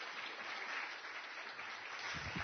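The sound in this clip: An audience applauds to welcome a speaker at a morning talk, with steady, even clapping throughout.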